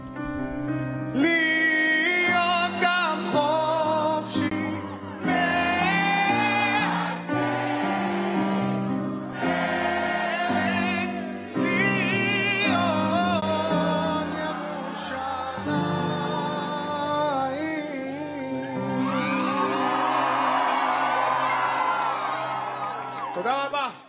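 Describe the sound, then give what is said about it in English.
An Israeli singer performs Hatikva, the Israeli national anthem, live at a march rally in Washington: a sustained, melodic sung vocal with musical backing, steady and loud throughout, with crowd cheering and whoops mixed in. “performing a stirring rendition of Hatikva.”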